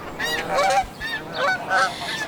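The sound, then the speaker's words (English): Snow goose honking: several nasal, harmonic honks in quick, uneven succession, moderately loud and alone, with no voices. “It's the snow goose, dropping out of the eastern sky.”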